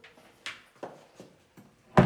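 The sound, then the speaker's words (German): Door being pushed shut: a few soft taps and light knocks, then one louder, sharper thud as it closes at the end. “Und mach dann bitte noch die Tür zu.”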